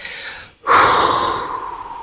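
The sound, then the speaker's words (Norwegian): Slow breathing in and out, heard alone: a soft airy breath, a brief silent pause, then a fuller, louder breath that holds steady and slowly fades. “jeg puster inn, jeg puster ut.”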